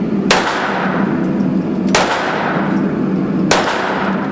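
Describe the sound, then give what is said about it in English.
Three handgun shots at a shooting range, fired at a human silhouette target during a state permit qualification course. Each is a sharp, loud crack, evenly spaced about a second and a half apart, over a constant wash of background noise. “Draw and load to ready. Load to ready. Okay, 12 rounds. Fire.”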